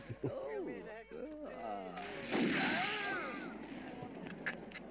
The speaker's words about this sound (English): Sorry, watching people get shot.